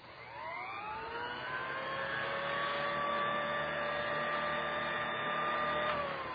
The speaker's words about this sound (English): If the machine is standing in one place, if it is not being used, it will sound like this.